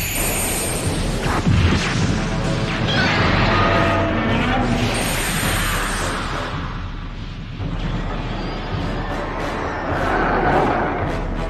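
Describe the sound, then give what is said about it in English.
A fictional freezer gun fires with a long, roaring blast of broad noise that swells and ebbs over several seconds, with rumbling low end beneath a hissing top. “Freezer gun, stand by to fire.”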